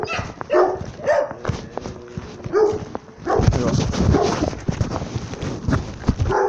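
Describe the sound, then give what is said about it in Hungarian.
A small dog barks in a run of short, sharp, high yaps. They come irregularly at first and then crowd together into a rapid, loud volley in the second half. “Kicsi kutya! Kis kutya!”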